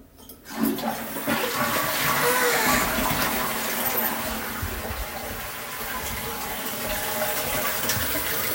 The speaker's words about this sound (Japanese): きれいに拭いた。流していきます。